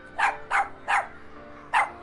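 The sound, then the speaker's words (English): Dog barking: four sharp, loud barks, the first three in quick succession and the last after a short pause, with nothing else heard. “Where'd that dog come from?”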